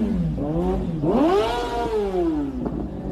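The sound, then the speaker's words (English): A motorcycle engine revs hard, its whining tone dipping, then climbing steeply at about one second and easing gradually downward, loud and continuous with no voices. “that is a fucking bike, though”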